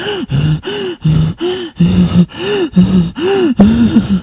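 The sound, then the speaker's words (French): A woman moaning in a bedroom: loud, rhythmic cries repeat many times, each a sharp breathy gasp followed by a low, held moan, with no talk. “Ces bruits, ces gémissements proviennent de la chambre de sa mère.”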